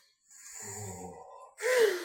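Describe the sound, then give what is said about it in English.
A single deep breath: a drawn-out, faintly voiced intake of air lasting about a second, followed by a louder, sharper rush of breath, with no speech. “Deep breath.”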